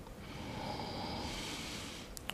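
A long, faint, airy exhale during an abdominal and leg-strengthening floor exercise, a soft steady whoosh of breath held for about a second and a half over low background hiss.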